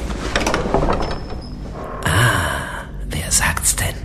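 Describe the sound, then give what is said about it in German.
A door handle pressed down carefully and a door to a cellar opened, heard as a few breathy scraping and rustling bursts with a faint thin tone early on. The louder bursts come in the second half. “lauschte an der ersten, hörte aber nichts und drückte vorsichtig die Klinke runter”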